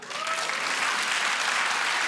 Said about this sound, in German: einmal per Applaus.